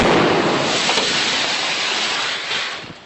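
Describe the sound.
A fireworks rocket whizzes closely past and bursts, making a loud, broad rushing hiss that is strongest at the start and slowly fades away.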